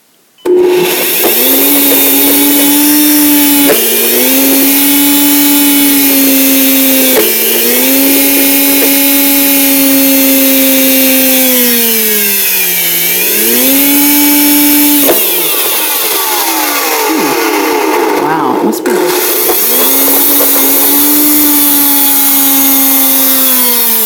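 A powerful kitchen blender motor pulses through chunks with added water, a loud, sustained high whine that runs almost without a break. It briefly dips several times, and its pitch sags and then recovers partway through.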